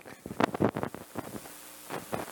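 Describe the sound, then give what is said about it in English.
Microphone cord being stepped on during a church communion service, giving a series of irregular, muffled rumbling and crackling bursts at a low level. “Is it me stepping on this cord and making this noise? Yeah.”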